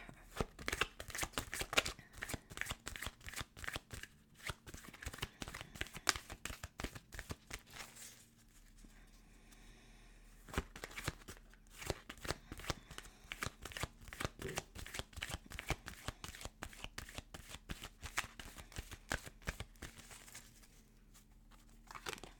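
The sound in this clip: Angel oracle cards being shuffled: many rapid riffling flicks and papery slaps in a steady stream, easing into a quieter stretch partway through before the brisk shuffling resumes.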